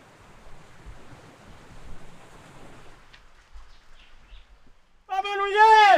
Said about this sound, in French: c'est la mer.